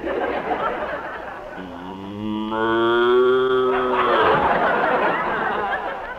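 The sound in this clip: A cow lows in one long, drawn-out moo that swells and then fades, with chattering and chuckling voices before and after it.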